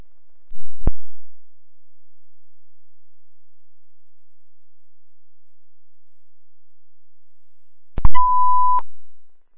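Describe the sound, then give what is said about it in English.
A smoke detector beeps during a service test: a sharp click near the start, then a long silence before one steady, mid-pitched electronic tone of just under a second. “Drop on sheet smoke detector, we're going to service. Functioning smoke detector.”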